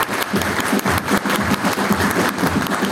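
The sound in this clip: An audience claps warmly for an honoured guest during a celebration. The applause is loud, dense and sustained for the whole stretch, with a steady patter of many hands.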